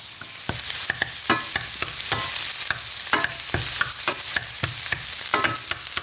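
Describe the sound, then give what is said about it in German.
Onions sizzle in a frying pan for a risotto while being stirred: a steady hiss of frying broken by many sharp scrapes and clicks from the stirring. “Die Zwiebeln brutzeln hier schon in der Pfanne. Immer mal wieder ein bisschen umrühren, damit nichts anbrennt.”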